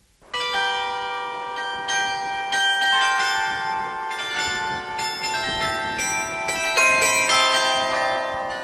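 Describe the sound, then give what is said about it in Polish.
Carillon bells, a tuned set of at least 23 bells hung on a tower, play a melody of overlapping struck notes that sustain and ring into one another, loud and steady throughout with no voices. “w którym znajdują się czynne instrumenty złożone z co najmniej 23 zestrojonych ze sobą dzwonów. Jeden mobilny i dwa zawieszone na wieżach.”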